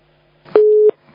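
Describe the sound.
A busy signal sounds after a dropped phone call: a single short, steady, low-pitched beep, loud and alone, cutting off abruptly.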